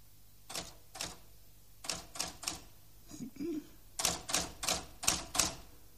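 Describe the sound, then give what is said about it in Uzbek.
Faint clacking of a brand-new Optima typewriter, with irregular clusters of sharp keystrokes separated by short pauses and a busier flurry of strikes near the end, with no voices. “Bir oqshom qarasa, yap yangi Optima mashinkasini chiqillatib o'tiribdi.”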